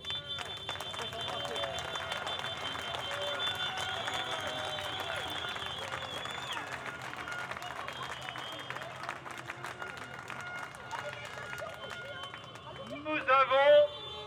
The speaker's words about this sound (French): Merci à tous, applaudissez-vous.